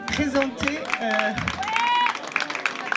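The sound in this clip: Audience applause and cheering at a Bollywood dance workshop presentation, a dense patter of clapping under a person speaking, with brief whoops rising through the crowd noise.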